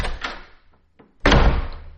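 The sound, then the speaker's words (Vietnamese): A door slammed shut during an angry argument at home. One loud, heavy bang with a booming low thud rings out briefly, after a couple of faint taps. “Tiếng đóng cửa rầm một cái.”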